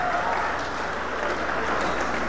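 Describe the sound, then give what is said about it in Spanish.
Applause from a church audience during a sermon: a steady, dense wash of many hands clapping, sustained evenly throughout with no break or clear individual claps. “dele un aplauso al Señor”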